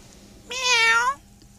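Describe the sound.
A single cat meow, a clear, tonal call lasting just over half a second, fairly loud against an otherwise quiet background.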